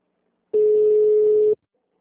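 A telephone tone after a dropped call sounds once for about a second, a steady, clean mid-pitched beep that starts and stops abruptly against silence.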